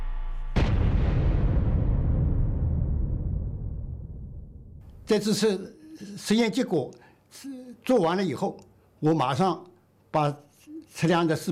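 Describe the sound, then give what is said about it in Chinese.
A single deep blast rings out from a full-scale detonation test of a Chinese nuclear device. Its heavy rumble decays slowly over several seconds. A voice then speaks in several short phrases. “6月6日下午5时左右，全尺寸爆轰试验准时点火。”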